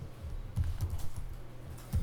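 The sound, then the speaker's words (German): Typing on a computer keyboard, a quiet run of soft keystrokes in an irregular rhythm, with a few slightly louder taps standing out. “Also ich fange hier an, irgendwas zu tippen und ihr habt gesehen, da kam eben noch nichts”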